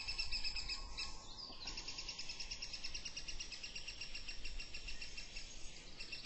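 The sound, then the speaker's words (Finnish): A spotted flycatcher calls while catching food, giving faint, thin, high-pitched chirps repeated in rapid, regular series throughout. “Harmaa sieppu tuossa pyydystelee ruokaa.”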